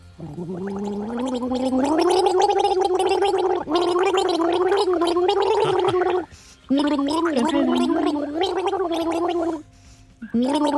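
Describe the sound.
A voice gargles the melody of a pop hit, producing a bubbling, wavering tune with clear pitch changes that runs almost without a break, pausing briefly twice before it ends.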